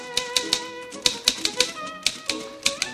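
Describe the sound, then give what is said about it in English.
A gruff, middle-aged woman types on a typewriter, striking many crisp, rapid keys in short uneven bursts. “Schindler as a gruff, middle-aged woman types away”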